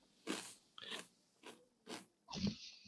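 Faint crunching of Pringles Cheeseburger chips as someone bites and chews, five crisp crunches in a loose, steady rhythm with quiet gaps between them.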